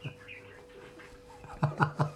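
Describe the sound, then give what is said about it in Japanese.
Birds chirp loudly, a few sharp, bright harmonic calls bunched near the end after a quieter, faintly noisy stretch. “すごいね、鳥 めっちゃ喋ってる。 初めてだね、この収録で鳥がこんなに”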